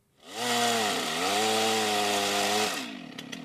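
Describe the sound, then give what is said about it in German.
Chainsaw running during illegal tree felling in a northern Namibian forest: a loud, steady buzzing engine whine with a brief dip in pitch early on, held for a couple of seconds before easing off to a quieter idle. “Das Geräusch von Motorsägen bedeutet nichts Gutes im Norden Namibias.”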